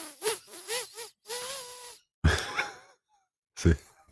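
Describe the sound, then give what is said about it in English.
Air pushed out through a blocked, congested nose in a few rough, breathy snorts and puffs separated by short silences, fairly faint overall. “I'm going to push air out of my nose now. See what I mean? Inhaling is not much better.”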